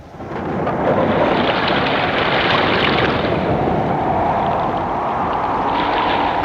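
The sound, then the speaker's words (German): A violent storm with thunder and rain, aboard a ship in a November gale at sea: a loud, continuous roaring wash of wind, rain and surf that swells up within the first second and then holds steady. “Am 3. November erhob sich ein furchtbarer Sturm.”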